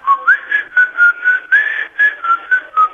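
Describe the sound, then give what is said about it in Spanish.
A person whistles a tune that a late father used to whistle, a clear, bright melody carried in a series of short, separated phrases with small pitch bends, steady in loudness and heard alone without talk. “Mi viejo ya no está, pero siempre silbaba eso.”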